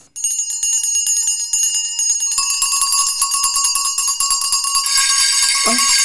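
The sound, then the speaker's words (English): Many house bells ring at once in a dense, continuous metallic jangle of bright high tones. The sound grows fuller as more bells join partway through, with no voices. “Every bell in the house must be ringing.”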